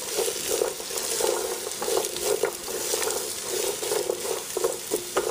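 Peppers, celery and onion sizzle and fry in a pan, a steady crackling hiss with small bursts of stirring throughout and no talk.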